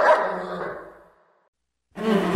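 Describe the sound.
A dog barks once, the sound trailing off into silence before another loud bark starts.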